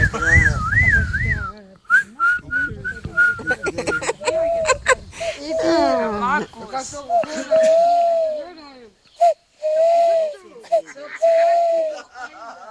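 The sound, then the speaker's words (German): A person whistles in imitation of an owl call, starting with a wavering, warbling high whistle and then giving a series of short, steady whistled notes, while voices talk between them. “Das hat sich echt angehört wie eine Eule jetzt.”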